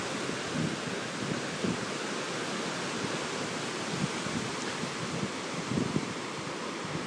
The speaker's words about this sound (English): apart from just listen to the wind, the sound of the wind blowing through the trees. It's deafening.